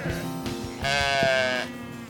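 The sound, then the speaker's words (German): A lamb bleats once: a single wavering, nasal, mid-pitched cry rising out of quiet outdoor background noise. “Da ist ein Lamm.”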